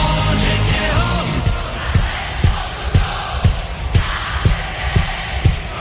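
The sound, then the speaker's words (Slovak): A concert audience yells and cheers loudly in response to a hit song, a dense roar of many voices with a steady run of regular, sharp thumps as the crowd keeps time. “No, je to hit, pri ktorom publikum na koncerte najhlasnejšie reaguje. Tu je dôkaz.”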